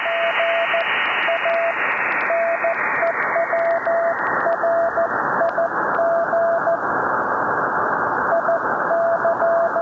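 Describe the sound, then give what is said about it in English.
Morse code CW signal on a ham radio receiver with noisy interference nearby, cleaned up by IF shift: a steady beeping tone keys out many dots and dashes over a dense hiss that narrows partway through. “we have a CW signal with noisy interference nearby. Listen to how much clearer the signal becomes as we use the IF shift to move the noise out of the passband.”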